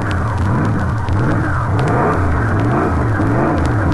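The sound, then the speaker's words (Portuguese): Racing car engine revving at a motor race: a loud, rough low roar whose pitch swells and dips over and over in quick cycles, with crackling noise on top and no voices. “esse é o barulho da máquina de Chico Landi. Estamos aqui junto do carro de Francisco Landi”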